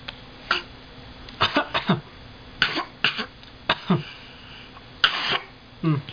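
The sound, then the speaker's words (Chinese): People cough in many short, sharp bursts, some in quick pairs, scattered unevenly over several seconds with quiet gaps between, and a throat clearing among them. “你们嗓子怎么了？可以咳，可以咳。”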